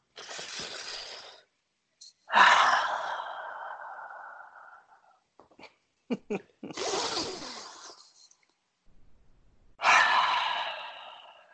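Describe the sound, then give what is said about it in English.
A person's voice imitates heavy mechanical respirator breathing with four long, harsh, hissing breaths. Short pauses and a few small clicks fall between the breaths. “Can I get one more Darth Vader breath real quick?”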